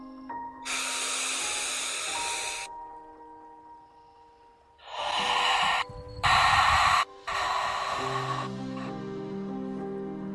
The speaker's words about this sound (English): we're going to exhale. This breath is nice and deep and nice and slow. Sounds like this.